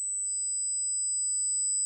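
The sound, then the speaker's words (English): A simulated tinnitus ringing: a thin, high-pitched pure tone, joined just after the start by a second, slightly lower whistle. Both hold evenly and alone for under two seconds. “Tinnitus can be defined as a false perception of a sound and the absence of an acoustic stimulus. It sounds a bit like this.”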